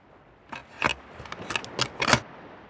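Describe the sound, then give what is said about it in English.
A key turns in the lock of an old treasure chest just dug up from the ground, giving a series of sharp metallic clicks and grating scrapes that grow stronger toward the end, with no voices. “opened it with the key which was in the lock,”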